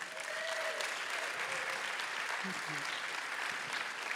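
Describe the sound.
An audience applauds and cheers in a steady, dense wash of clapping that holds at an even level, with some voices mixed in.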